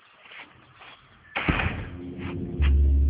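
A door shuts with a single solid thud, followed by a low, lingering rumble.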